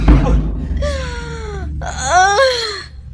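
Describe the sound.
Person crying in two long, wavering voiced wails, the first sliding downward in pitch, the second sustained and slightly rising before it trails off.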